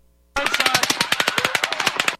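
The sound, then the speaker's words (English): Rifle rounds hit pavement in a rapid burst of many sharp, bright, crackling impacts. The burst starts abruptly, holds a fast, even rhythm for nearly two seconds, then stops. “Now I'm going to play for you just the sound of rifle rounds hitting the pavement. I want you to notice the high frequency sounds in that sound.”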